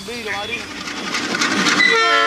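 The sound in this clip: A freight train crossing Mexico, the one called la bestia, gives a heavy rolling rumble with whistle-like tones sliding over it, growing slightly louder as it goes on.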